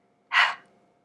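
A deep exhale ending in a big puff of breath, one short soft whoosh that swells quickly and then trails off into silence.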